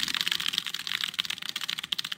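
Fast typing on a computer keyboard: a dense, rapid stream of crisp plastic keystrokes clatters continuously without pause.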